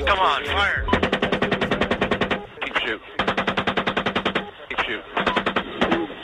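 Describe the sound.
Machine-gun fire from the US Army on civilians in Iraq in 2007, heard as several loud bursts of rapid, evenly spaced shots separated by short pauses, with brief voices in the gaps.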